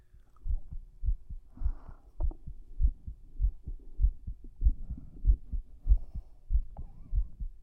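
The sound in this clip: A fast heartbeat heard with an ear pressed against a chest, a steady run of many deep, muffled low thumps repeating at a quick, even pace.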